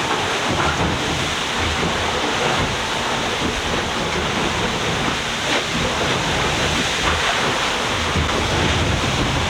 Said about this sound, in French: Donc c'est une vague qui passe par-dessus le pont.